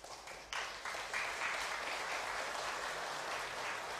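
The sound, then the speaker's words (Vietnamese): Grooms in an audience clapping together, a dense, steady burst of many hands that thickens after the opening half second and keeps going without a break for about four seconds. “chưa kịp yêu cầu thì các chú rể đã vỗ tay”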